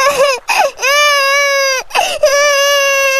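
A young girl crying in fright, with several loud, high wailing sobs. The longer cries are drawn out and fall in pitch, and short catches of breath come between them.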